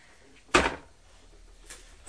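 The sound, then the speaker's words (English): A child handles a wooden drawer front, making one sharp knock followed by a couple of fainter bumps, all quiet. “No, listen, you mustn't do that because that's wood and you're going to damage it. It's the front of the drawer.”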